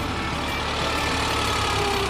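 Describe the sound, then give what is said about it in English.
Engine idling in economy mode, a steady low rumble with an even, unbroken loudness and no voices over it. “Okay, now this is in the economy mode, and you can listen. When we go into the performance mode, you will see the idle quality deteriorate.”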